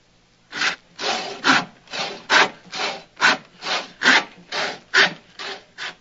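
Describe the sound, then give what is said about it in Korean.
A hand saw cuts through the heels of women's high-heeled shoes in many rasping back-and-forth strokes, loud and even in rhythm. “그 다음 날 올리버는 톱으로 구두 뒤축을 모조리 자르고 있습니다.”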